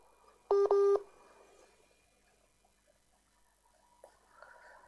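A telephone call connects on a radio call-in line. A brief, loud burst of keypad-style tones comes near the start, followed by a quiet, faintly hissing line with a couple of small clicks and noises.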